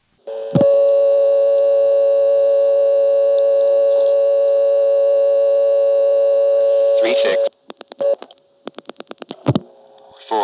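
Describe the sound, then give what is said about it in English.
Telephone exchange tones on a trunk into the Cabot exchange after dialing 99 for the supervision test: a long, steady humming tone, then a burst of pulse-dialing clicks and short, interrupted tone pulses. “Here's coming into Cabot, dialing a 4, finding that I'm already in the 2400 group even though I didn't dial the 2, and then dialing 99 to get the supervision test.”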